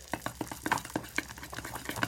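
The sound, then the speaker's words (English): Double cream, cinnamon powder and maple syrup being stirred together, a quick, uneven run of soft clicks and taps from the utensil, faint throughout. “just mixing that all together.”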